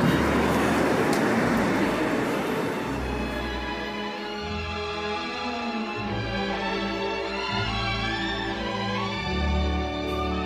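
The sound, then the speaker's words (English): Steady low rumble of a car driving through Los Angeles toward Skid Row, a continuous road and engine drone holding at an even level throughout, with no talk over it. “So currently I'm driving down towards Skid Row, an area of Los Angeles that's known as being incredibly dangerous”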